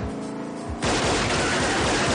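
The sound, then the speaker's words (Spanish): Gunfire aimed at enemies' car in a street shootout from a 1999 action thriller: after a quieter opening, a sudden loud, dense volley of rapid shots bursts in and continues without pause to the end. “De pronto divisa el coche de sus enemigos y les dispara.”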